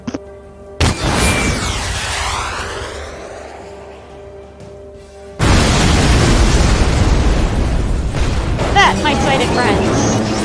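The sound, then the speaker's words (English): An exploding storage tank in a video game: after a stretch of sweeping electronic noise, a loud, roaring blast erupts and rumbles on to the end. “You can guess what that was. The rocket. What is it? The storage tank blowing up.”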